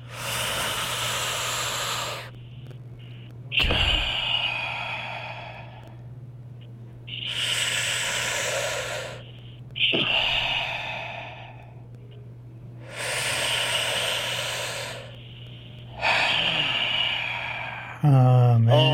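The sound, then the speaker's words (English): Three slow, deep breaths, each a long airy inhale followed by a long hissing exhale, evenly paced over a steady low hum. “And let's do these good three deep breaths in 3, 2, 1. Let's go.”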